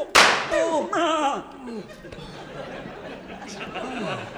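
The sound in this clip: A single sharp, loud gunshot crack in a Western shootout, followed at once by voices crying out and chattering.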